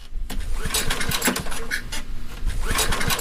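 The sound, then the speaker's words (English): A portable generator that has not run since 2022 fails to start in a basement, giving a loud, continuous rattling, sputtering mechanical clatter with irregular knocks and no steady running engine. “You're down in the basement holding a flashlight in your teeth trying to start a portable generator that has not run since 2022. It doesn't start.”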